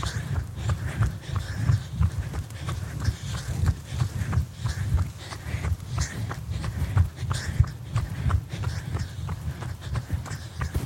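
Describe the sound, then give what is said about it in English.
Running footsteps of strides taken outdoors into the wind: a steady, rapid run of dull footfalls that keeps an even rhythm for about eleven seconds, with wind noise underneath. “Oh, let me do the strides first, then I'll continue talking. All right, are we ready to begin? Stride number one in 3, 2, and 1.”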